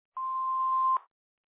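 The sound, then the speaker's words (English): A single steady mid-pitched electronic beep from an automated call blocker prompt, sounding alone for just under a second before cutting off cleanly. “Please say your name after the tone, then press pound.”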